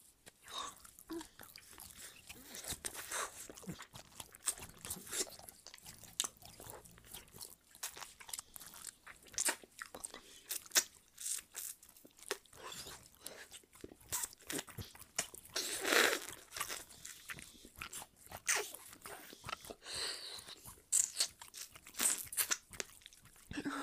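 Someone chews and crunches food while eating, a quiet, steady run of many irregular crisp crunches and wet chewing sounds, with no talk.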